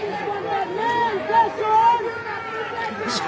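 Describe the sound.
An angry crowd clamors with overlapping raised voices and restless babble, some louder shouts swelling and falling while the general hubbub continues at a steady level.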